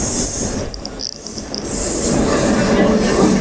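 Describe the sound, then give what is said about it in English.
A train arriving at a station: a loud, continuous rumble of wheels on rails with a high, thin squeal running throughout, growing slightly heavier in the second half. “All right, my train's arriving, so I'm going down”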